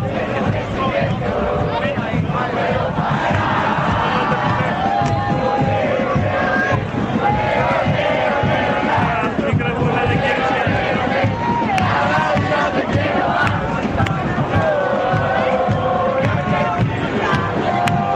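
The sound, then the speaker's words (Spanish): Football fans in a dense crowd cheer and chant during the World Cup, a loud, continuous roar of many voices with no breaks, steady in level throughout. “Bueno, yo te convido un poquito del ruido, volvé cuando quieras. Dale, ruido ambiente, vamos.”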